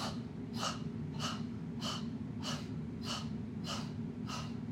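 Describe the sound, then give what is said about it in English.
Forceful breathwork exhales, pushed out through the nose like a bellows with passive inhales, repeat as seven sharp, evenly spaced puffs about every half second over a steady low hum. “Inhales happen automatically. It's like a bellows. Focus forward. We start with the exhale.”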